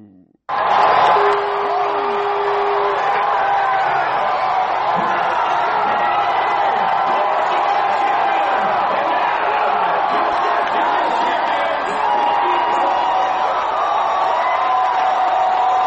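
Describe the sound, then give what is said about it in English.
Loud, sustained crowd roar of baseball fans at Nationals Park celebrating the Washington Nationals' 6-2 World Series-clinching win over the Houston Astros, with cheering and whoops blending into an unbroken wall of noise. “baseball fans erupted in cheers early Thursday morning to celebrate the city's first World Series title in 95 years.”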